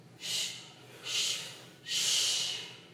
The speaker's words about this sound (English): then we're going to exhale three times.